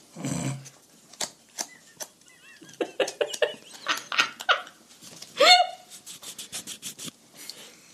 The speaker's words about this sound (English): Could you hear how hard he was riffling through those cards? I know, he was just bending them